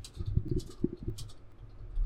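Typing on a computer keyboard as a search is entered into Google: a short run of quick, irregular clicks and taps, fairly faint, with no talking.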